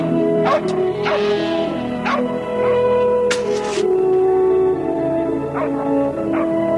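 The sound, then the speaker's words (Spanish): Sharp yips and barks from a dog keeping a flock of sheep together in a meadow. A few brief bursts rise over a steady, sustained tonal background. “En el prado pasta un rebaño de ovejas que un perro mantiene juntas.”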